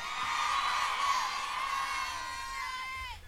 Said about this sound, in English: Somebody booed marriage.